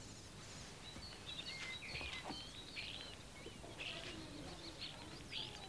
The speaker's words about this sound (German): Die Stare zwitschern.